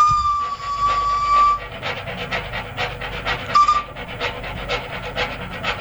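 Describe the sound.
A train leaving the station, with a steady rhythmic chuffing pulse. A long, high whistle-like tone sounds at the start and a brief one returns midway.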